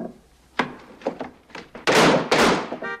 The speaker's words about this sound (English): bangs on the hatch